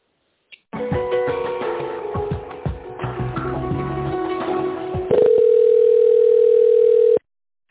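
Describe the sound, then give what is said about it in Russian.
Telephone line tone while a call is being connected: a crackly, noisy line sound runs for several seconds, then a loud, steady single-pitch tone holds for about two seconds before cutting off abruptly. “Семьдесят 53, сейчас попробую соединить вас.”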